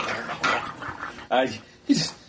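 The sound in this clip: A dog whimpers and yips in a few short, high-pitched bursts while people talk.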